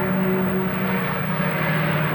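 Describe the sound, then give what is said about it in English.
Road traffic passing outside makes a steady, unbroken rumble and whoosh with a low hum beneath it, and no voices are heard. “I didn't realize how much traffic out here.”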